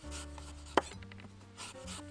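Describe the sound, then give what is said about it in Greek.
A single sharp knife strike on a cutting board while cutting a Starking apple, a short crisp chop standing above a faint, low rubbing hum. “και το κόβουμε όπως θέλουμε, ή ψιλοκομμένο ή σπιρτόξυλα ή ζαράκια όπως μας αρέσει.”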